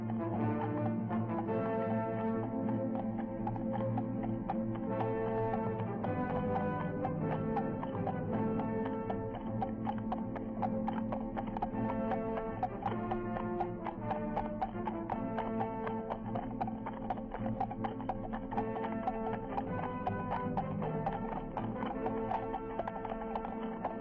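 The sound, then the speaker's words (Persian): A horse gallops up a steep alley, its rapid hoofbeats clattering in an unbroken, steady rhythm that keeps an even loudness from start to finish. “بر آن جست و در آن شیب تند کوچه اسب به تازش درآورد.”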